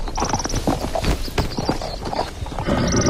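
Horse hooves clip-clop as riders get ready to mount, a busy run of irregular knocks and thuds that stays fairly loud and steady throughout.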